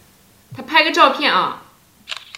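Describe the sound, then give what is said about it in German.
Camera shutter snapping as a photo is taken, a short sharp burst right after a stretch of speech. “Ich mache mal ein Foto.”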